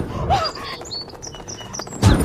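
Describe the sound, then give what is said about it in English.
A sparrow chirps in a quick run of short, high tweets, with a lower call near the start and a dull low thud close to the end. “Oh, fucking sparrow, the lamest of all birds.”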